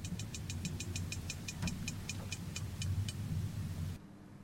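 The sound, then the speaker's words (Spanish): A fish makes sound by releasing air bubbles from the rear of its intestine. Many sharp, high ticks follow one another at a steady, quick pace over a low rumbling background, then stop shortly before the end. “ese sonido lo realiza con burbujas de aire que salen de su intestino, de la parte posterior. O sea, gases.”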